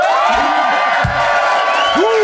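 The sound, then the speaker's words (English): Debate audience cheering and whooping after a call for a vote by applause, with shouting voices rising over a steady crowd roar. “please applaud now”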